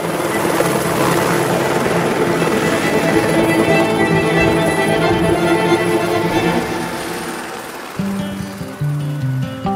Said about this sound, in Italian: Gli elicotteri si affiancarono, girarono nello stesso momento come se volessero far vedere quanto erano bravi, poi scomparvero all'orizzonte.